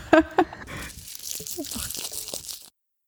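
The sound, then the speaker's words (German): The wrapper of a Lindt chocolate ball crinkles as it is unwrapped: two sharp crackles come first, then softer rustling and crackling that stops abruptly. “Du kannst aber auch gerne schon parallel die Lindkugel. Du kannst sie schon mal anfassen und schon mal auspacken.”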